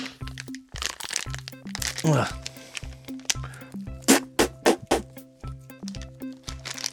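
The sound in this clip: Teeth bite and tear into the plastic packaging of an Operation board game, giving many crinkly crackles and sharp crunching snaps in an uneven rhythm, loud and close, with several hard bursts bunched near the end.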